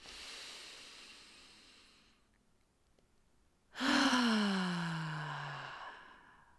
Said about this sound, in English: Take a deep breath in.